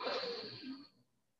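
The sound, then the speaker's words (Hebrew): A deep inhalation during a guided breathing exercise: a soft, airy hiss lasting under a second that tapers off into silence. “קחו שאיפה עמוקה אל האגן.”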